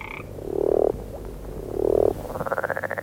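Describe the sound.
Frogs or toads croaking: two long, low, buzzing croaks with a short pause between them, followed by a rapid pulsing trill at a higher pitch.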